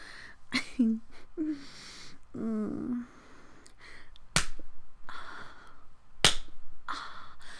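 Three sharp, loud hand slaps on skin during a spanking, with breathy vocal sounds and moans between the cracks.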